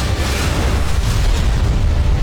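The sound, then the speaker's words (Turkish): A deep explosion as an Aselsan Tolun P guided bunker-buster munition strikes its target in a test, heard as a heavy, continuous low rumble that stays loud for the whole clip. “O gurur veren anlara bakalım şimdi. Savunma sanayinin yeni gözdesi sığınak delici Tolun P hedefi tam isabetle vurdu.”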